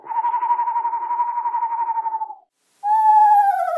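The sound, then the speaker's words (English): A voice imitates a screech owl's call: a long, steady, even trill held for a couple of seconds, then after a brief pause a whistled wail that slides gently downward in pitch. “And a smaller owl, like a screech owl, might go,”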